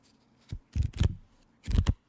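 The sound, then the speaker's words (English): A stack of glossy signed Hulk Hogan trading cards is handled. It gives a few soft, papery flicks and riffling bursts, faint and uneven, with no talk over them. “You know what that is? Signed Hulk Hogan cards.”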